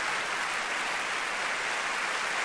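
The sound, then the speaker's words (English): Steady applause from an audience cheering a weather report: a dense, even hiss of many hands clapping with no distinct single claps. Loudness stays constant throughout, with no voices. “Look at the applause he's getting. Look at that. It's incredible.”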